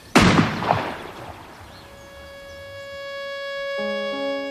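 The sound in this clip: A single rifle shot during military shooting practice: one sharp, loud crack with a short decaying tail, then quiet until steady held tones fade in and continue to the end.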